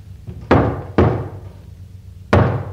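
Knocking on a door: three heavy, booming knocks, the first two close together and the third after a longer pause, each a low thud that dies away quickly over a faint background murmur.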